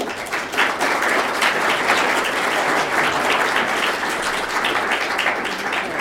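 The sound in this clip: An audience applauds to welcome a speaker to a talk, with loud, dense clapping that holds steady throughout the six seconds.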